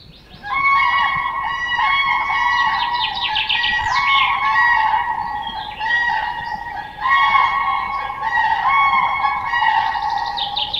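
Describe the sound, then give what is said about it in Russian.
Cranes calling in loud, continuous, overlapping trumpeting cries with rich harmonic tones that rise and fall, after a brief moment of quiet at the start. “Журавли.”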